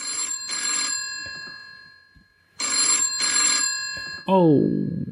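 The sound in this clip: A telephone rings in two bursts, each a double ring with a bright, buzzing bell tone and steady high harmonics, and then a voice answers at the end.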